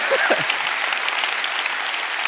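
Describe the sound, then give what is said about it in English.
An audience claps in sustained applause, a dense steady wash of many hands that stays loud and even throughout, with a brief voice sound near the start. “Oh, come on, we're gonna clap for somebody that got their life changed.”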